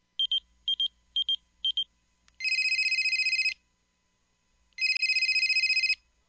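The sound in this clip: A telephone ringing: four short, bright electronic chirps in quick succession, then two long, buzzing trills separated by a pause, loud and alone without any talk.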